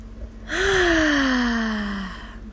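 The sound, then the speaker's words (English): A person drawing a deep breath, one long gasp-like inhale carrying a voiced tone that slides gently downward over about one and a half seconds, fairly loud and with no talk. “Take a deep breath with me. That felt nice. Take another one.”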